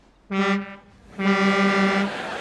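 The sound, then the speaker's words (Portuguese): A car horn swapped for a ship-like horn gives two deep, buzzing blasts, a short one and then a longer one, loud and alone. “Pai, não é por mudar a buzina que passa a ser um carro de homem.”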